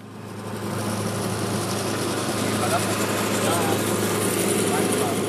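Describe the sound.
A lawn mower engine runs on a football pitch, giving a steady, dense droning hum with a low constant tone and unchanging loudness, while a person talks over it.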